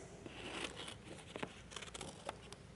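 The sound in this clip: Paper being cut off at a corner, likely with scissors: faint crinkling and rustling broken by a few small, crisp snips.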